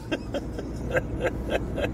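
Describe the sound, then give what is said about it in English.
A car drives along a winding, treacherous road, with a steady low rumble running throughout and a series of light, regularly spaced ticks on top. “Anyway, we're driving back. I've got to concentrate on this road here. This is a treacherous road.”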